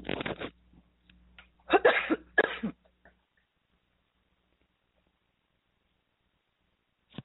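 A few dry coughs from a tickle in the throat come in short, loud bursts, one alone and then a quick pair, before the sound drops to near silence.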